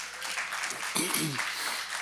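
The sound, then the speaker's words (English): Audience applause at a church worship service, a broad wash of clapping running under a speaking voice. “Can we just give them a hand?”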